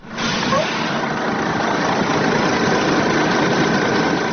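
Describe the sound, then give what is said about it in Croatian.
A bus carrying about 80 migrants idles as it stops about 4 km from the Horgoš border crossing. Its engine gives a loud, steady, low rumble that continues unbroken throughout, with no voices. “Autobus sa oko 80 migranata izbjeglih iz država Bliskog istoka zaustavlja se na oko 4 km od graničnog prelaza Horgoš.”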